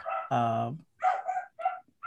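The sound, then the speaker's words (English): A dog barks: first one longer, fuller bark, then a few shorter, higher yips in quick succession, fairly loud and without talk over them. “Dog approves. As he says.”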